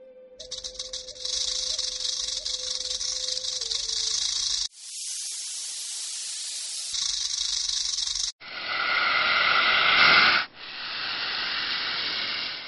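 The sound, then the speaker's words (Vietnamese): Shrill, metallic hissing sound effect of snakes with scales rubbing together, heard as several loud, sustained bursts of harsh hiss that start and stop abruptly. “Tiếng vảy rắn cọ sát cùng với tiếng kim loại chói tai, chỉ có khi rắn thẻ lưỡi nhả tiếng”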